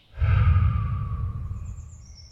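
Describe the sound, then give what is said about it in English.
A deep, drawn-out breath taken outdoors among pine trees, one long, airy rush that swells quickly and then tapers slowly over about two seconds, heard alone without talk. “Let's take a few deep breaths together. Ready? Breathe in. Breathe out.”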